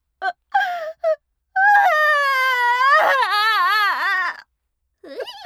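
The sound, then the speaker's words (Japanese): A woman crying: a few short sobbing gasps give way to a long, loud, wavering wail whose pitch bends up and down for about three seconds, followed by a brief whimper at the end. “泣いちゃった。”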